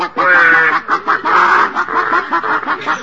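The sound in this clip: People imitate chickens clucking, disguised as hens on nests inside a chicken coop in the dark, making many short, choppy voiced clucks in an uneven rhythm with brief pauses between bursts.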